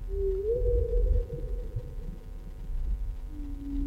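A whale call: a low, drawn-out tonal moan that rises slightly early on and holds, then fades, with a second shorter tone near the end, all over a deep, throbbing rumble.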